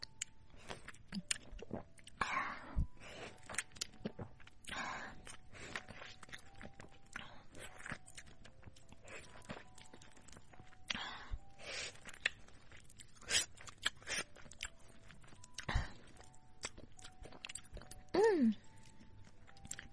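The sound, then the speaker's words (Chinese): Close, wet chewing of a piece of sweet orange, with many soft crunches and juicy bites scattered unevenly across a long stretch of steady eating, fairly quiet throughout. “再吃一块甜甜的橙子。”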